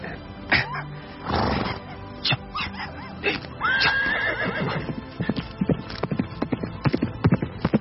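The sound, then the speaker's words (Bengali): A horse gives a clear whinny partway through, amid scattered thuds, then many quick, uneven hoofbeats clop as it breaks into a gallop toward the south. “দক্ষিণ দিকে ছুটল ঘোড়া।”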